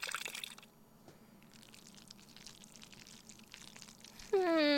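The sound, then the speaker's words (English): Milk poured into a pot of cooking macaroni makes a faint, steady liquid trickle with soft splashes, a bit stronger at the very start. “If she's thick, add more liquid. Ah, I know. Milk.”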